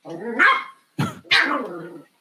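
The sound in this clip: A dog barking three times, loud and close together: one longer bark, a short sharp one, then another drawn-out bark, with silence between.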